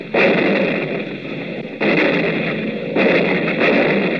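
A gun fired on command booms loudly in a few heavy blasts. Each has a rumbling sustain that carries into the next shot, and no voices are heard.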